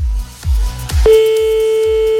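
Telephone line tones play while a call is placed back: a repeating low pulse throbs steadily, then a steady mid-pitched tone begins partway through and holds over the pulses, with no talk.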